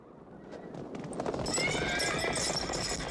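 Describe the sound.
Galloping hooves of more than twenty racing horses ridden by warriors at the start of a race on a river bank: a dense, continuous clatter that grows louder after the first second, with a whinny heard among the hoofbeats.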